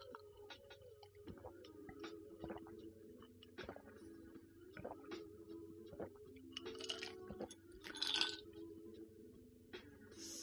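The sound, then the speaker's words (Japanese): Ice cubes clink against a drinking glass as someone sips ice water, with many faint, irregular ticks and tinkles spread through a quiet stretch. “氷を入れた水、氷水を飲んでいます。”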